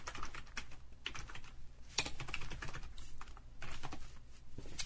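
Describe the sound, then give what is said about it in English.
Typing on a computer keyboard produces a steady stream of many rapid, faint clicking keystrokes. The clatter continues unbroken, with no talk over it. “Let me just type in the chat here.”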